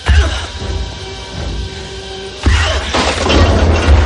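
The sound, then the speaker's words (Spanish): A body crashes onto pipes during a fight in a machine room. A loud low thud opens, then a quieter stretch, then a heavy, noisy clattering crash followed by further rough impacts. “Cae sobre unos tubos y Carl”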